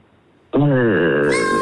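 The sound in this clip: A pet cat meows once, a loud, drawn-out cry with a bright, wavering tone that shifts higher near the end. It sounds alone, with no talk over it.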